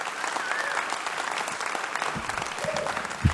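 Audience applause welcoming a guest musician back onstage at a concert: dense, steady clapping throughout, with a few shouts from the crowd.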